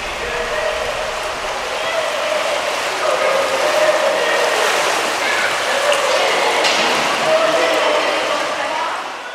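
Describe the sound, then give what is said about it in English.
Swimming pool ambience: a steady, fairly loud wash of splashing water blended with a blur of indistinct voices, holding evenly for about nine seconds. “Humidity, sound of splashing, people shouting, the whistle, bare feet on the wet tiles.”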